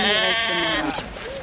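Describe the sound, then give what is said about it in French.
A sheep bleating at a Bedouin camp: one long, quavering bleat, then a short, higher call. “On vient de faire la tournée des campements bédouins pour trouver le meilleur mouton. Wow. Ah, okay. Il est là-bas.”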